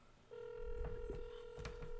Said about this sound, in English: We got a caller on the phone.